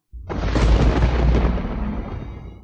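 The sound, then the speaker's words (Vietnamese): A single long thunder crash in an audiobook effect, a storm of dense, continuous thunder with lightning from the sky. It hits abruptly, then a heavy, deep rumble holds steady and slowly fades over a couple of seconds. “Ngay sau đó, bầu trời truyền ra âm thanh sấm chớp liên tục dày đặc.”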